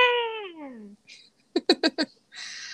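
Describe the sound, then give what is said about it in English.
A cat meows outside in one loud, drawn-out cry that falls in pitch. A few short, choppy, voice-like bursts follow. “Please excuse the cat that's meowing outside still.”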